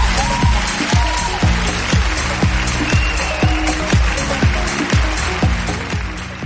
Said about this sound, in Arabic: يلا عطوهم صفقة للأباء والأبناء.